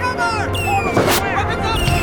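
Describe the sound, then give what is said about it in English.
Fireworks go off during a Guy Fawkes Day attack as lit fuses set them flying, giving a dense crackling roar with a sharp burst about midway, mixed with voices throughout. “Stay where you are, you fools. It's fireworks. The bloody Guy Fawkes Day.”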